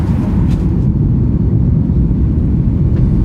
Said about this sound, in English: I'd like to welcome you to Los Angeles. It's 11:35 a.m. We'll be taxiing. We just get here in LAX.